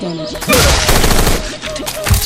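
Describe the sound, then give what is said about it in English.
Machine-gun fire in a video game: a loud, rapid, continuous burst of densely packed shots that briefly eases, then picks up again. “Machine gun. Let's use machine gun here.”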